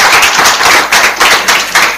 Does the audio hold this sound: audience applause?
yes